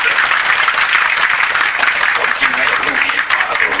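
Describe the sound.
Sustained audience applause welcoming a speaker, a steady, loud, dense patter of clapping that holds evenly throughout.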